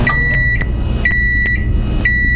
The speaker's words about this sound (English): I see a lot of people saying it sounds like lunch is heated up and ready to go. You are right. If you said, and I see a lot of it, microwave.